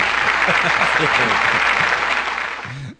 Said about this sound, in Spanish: A darle aplauso.